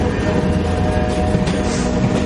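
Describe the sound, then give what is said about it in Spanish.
A train arriving at a station gives a steady, heavy low rumble with faint sustained hum tones above it, constant in level throughout. “El tren llega a otra estación.”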